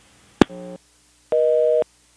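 Telephone busy signal after a caller's line drops: a sharp click, then two short bursts of steady busy tone, the second one louder and longer.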